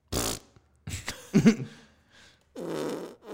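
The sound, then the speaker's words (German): Fart sound effects played from a soundboard: a few short, buzzy, sputtering bursts of varying length, a faint one in the middle, and a longer blast at the end. No talking over them. “Na schau, jetzt können wir Soundboarder verwenden. Ja, genau, das war unser cooles Soundboard. Das war das Erste, was wir damit gemacht haben, war den Sound drauf zu spielen. Furzgeräusche.”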